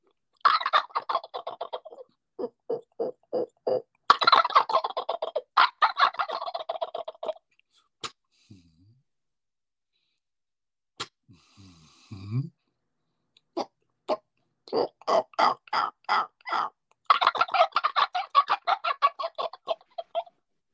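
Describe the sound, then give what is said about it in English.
A hand-operated turkey call imitates a turkey fly-down cackle. Clucking notes come in quick runs, then a stretch with only a few sparse notes, then more rapid, lively runs of clucks. “Yeah, I done a fly down cackle. Pop, pop, pop, pop, pop.”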